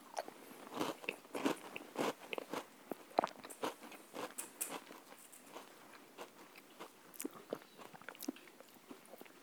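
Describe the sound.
Biting and crunching into a cookie, heard as a quiet, irregular run of many sharp crisp crackles and chewing crunches, with no voices.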